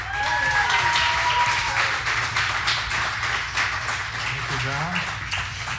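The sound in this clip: An audience gives a guest a warm welcome back with loud, sustained applause. A few shouted cheers rise above the clapping.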